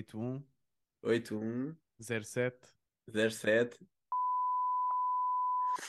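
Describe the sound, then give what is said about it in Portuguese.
Talk gives way to a steady, clear telephone tone during a call, holding one pitch unbroken for nearly two seconds. “Tá, estás-me a ligar, pá. Já está. Já desliguei. Deu ocupado.”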